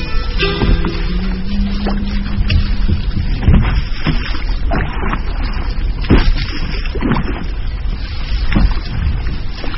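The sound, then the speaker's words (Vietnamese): A paddle scrapes steadily against the side of a small boat on a river as water parts around the hull, making a continuous rushing wash broken by occasional dull knocks. “Tiếng của chiếc rầm cạ vào be xuồng đều đều cùng với tiếng nước rẽ”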